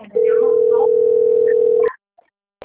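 A telephone ringing tone plays while a call is placed: one steady, clear mid-pitched tone held for almost two seconds, then cut off into silence.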